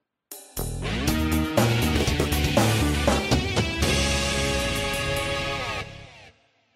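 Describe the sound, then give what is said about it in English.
Intro music of a toy-fighter punching video game: a dense, bright synthesized tune with layered melodic lines and a steady beat, playing loudly for about six seconds before stopping abruptly. “But it's called Figure Fighter, and it's got the new intro in the set, which sounds like this.”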